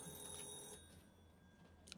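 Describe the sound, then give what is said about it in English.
A telephone rings with an incoming call. The bright, steady ringing is faint and plays alone, with no talk. “Let's take another call. We're good at calls. Let's take a call, baby.”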